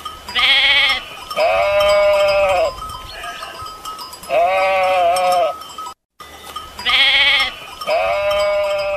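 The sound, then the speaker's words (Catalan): A herd of goats on an old drovers' route in Catalonia bleats loudly, with several long, wavering cries that overlap and come in bursts, separated by short gaps. “per fer el tancat de les cabres i tota la gent que els acompanya en algun moment. Aquest ramat forma part del camí ramader de Marina”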